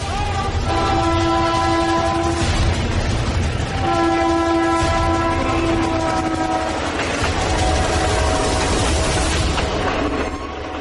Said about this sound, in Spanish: Espera. ¿Un tren? ¿Un tren?